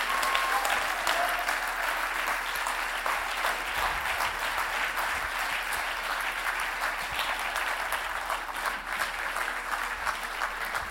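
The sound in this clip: Sustained audience applause welcoming a speaker to the stage at a gathering, a dense, even patter of many hands clapping without pause for the whole stretch, with no voices over it.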